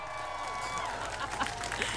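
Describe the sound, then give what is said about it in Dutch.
An outdoor audience applauds at a rainy festival, a steady wash of many hands clapping mixed with crowd cheering, with voices heard through it. “Ik wil een ovationeel applaus.”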